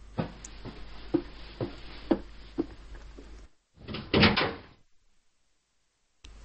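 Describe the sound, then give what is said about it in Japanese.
A room door being shut and locked. A run of light clicks and taps leads into a louder, broader burst lasting about a second, and then silence. “バタン。部屋のドアを閉め鍵をかけた。”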